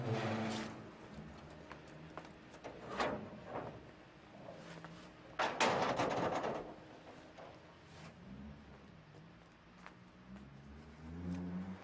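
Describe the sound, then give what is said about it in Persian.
A door is opened to let a car come in, giving faint scattered clunks and a brief rattling, scraping burst partway through over quiet background rumble. “پس اگه میشین شما بی زحمت این در رو باز کنید که من راحت بیام تو دیگه.”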